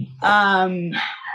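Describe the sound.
A dog barks downstairs with one loud, drawn-out tonal bark that holds for over half a second, followed by a short, rougher burst of noise.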